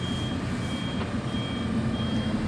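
Reversing beeps from a truck that carries medical supplies, tents or power generators: a steady run of high, evenly spaced electronic beeps over a continuous low engine rumble, with no talk.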